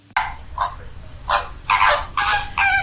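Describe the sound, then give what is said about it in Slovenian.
Flamingos call at a nesting colony in a series of loud, nasal, goose-like honks that come in uneven bursts, some of them overlapping, with no voices. “Lani je bilo tu 250 gnezdišč plamencev. Tako jih je slišati.”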